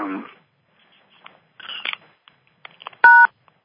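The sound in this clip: A single sharp telephone keypad tone is pressed while callers on a conference line are being muted. It follows a few faint clicks and rustles in near silence, with no talking.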